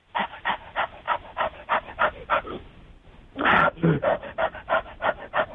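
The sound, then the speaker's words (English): A man imitates panting with rapid, rhythmic, breathy huffs like a dog. After a short pause midway, the panting starts again more loudly. “Oh, well, here, I'll do some panting.”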